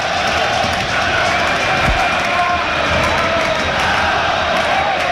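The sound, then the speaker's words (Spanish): Football fans in the north stand at Mestalla stadium chant at their coach. A dense, steady crowd roar of many voices holds evenly throughout. “el primer cántico es al entrenador, ¿no? Sí, sí, pero sí, sí, hay que reseñar que es la curva norte.”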